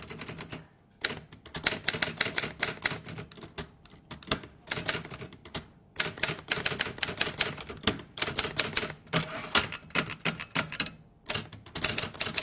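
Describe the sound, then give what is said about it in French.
Typewriter keys clatter in quick, uneven runs of many keystrokes, broken by short pauses, with no other sound over them. “On tapait à la machine à écrire.”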